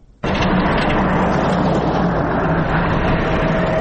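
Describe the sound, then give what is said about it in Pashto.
Continuous loud rumble of a vehicle carrying aid on a rough, potholed mountain road to Baghran district, starting abruptly and holding a dense, steady roar of engine and road noise throughout. “دا د باغران ولسوالۍ ته پر غځېدلې کنډ او کپر سړک د روان هغه کومک لرونکي بایپور موټر ژغ دی”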